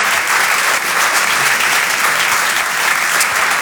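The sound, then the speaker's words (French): Loud audience applause for a comedian at a stand-up comedy club, a thick, continuous roar of clapping hands that stays strong and even from start to finish. “pouvez l'applaudir très très fort, Flora Amara sur Rire et Chanson.”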